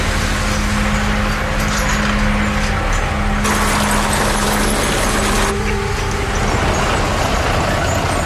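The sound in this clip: A car engine straining in first gear on a hill, a loud, continuous drone with a low humming tone whose character shifts a couple of times along the way.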